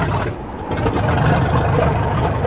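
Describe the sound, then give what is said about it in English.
Old biplane propeller engine running with a loud, steady, rough roar and rumble that holds throughout, dipping slightly near the start before settling into an even drone. “Setting the choke and throttle, Sandra wet her lips before taking hold of the ignition switch. Get ready! Contact!”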